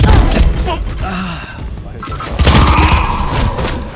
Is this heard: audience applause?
no